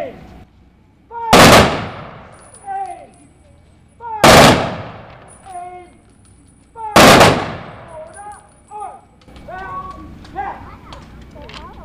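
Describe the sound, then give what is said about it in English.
Three sharp rifle volleys of a ceremonial gun salute honoring the fallen on Iowa Flag Day in downtown Knoxville, Iowa, evenly spaced a few seconds apart, each a loud crack with a short ringing tail. “We will now honor the fallen and color of the Iowa flag. Prepare to fire along in three rounds. And ready.”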